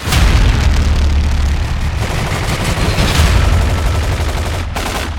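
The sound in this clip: A firing-squad gunfire sound effect: a loud, dense volley of rapid shots and booms rolling on almost without pause, with a short break near the end before the firing resumes.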